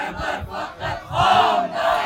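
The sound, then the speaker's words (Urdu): Crowd chanting the slogan 'Hezb faqat Hezbollah' in unison with a speaker at a rally, loud, rhythmic shouted bursts rising and falling with brief dips between phrases. “اور ذرا مل کر میرے ساتھ نعرہ لگائیے گا، حزب فقط حزب الہی”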